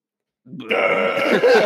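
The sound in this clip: A voice imitates a drawn-out burp, a single gravelly, croaking belch that starts abruptly and holds steady for over a second before cutting off.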